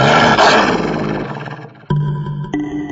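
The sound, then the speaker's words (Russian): A wolf's growl, rough and loud at first, dies away over about two seconds. Two abrupt tonal accents follow it. “Во мраке пещеры волчьи глаза горели зеленым огнем. В горле клокотал яростный рык.”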